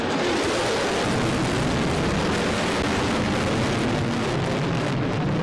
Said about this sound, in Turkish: Trump, B-1 bombardıman uçağının yüksek sesli havalimanı üzerinden geçmesi üzerine yüzünü buruşturdu.